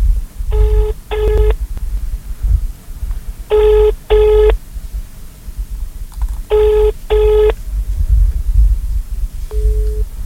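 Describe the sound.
A telephone rings out after a number is dialed: three pairs of short, steady electronic tones spaced a few seconds apart, then a fourth tone at the end, over a low hum.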